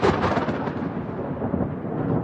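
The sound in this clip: Thunder rolls during a violent storm that floods a restaurant, a continuous low, dense rumbling roar that stays fairly faint and even throughout, with no voices.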